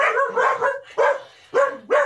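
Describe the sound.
A pet dog barks in a few bright, yelping bursts. The first is longer and wavering, and the rest are short and evenly spaced. No one speaks over it.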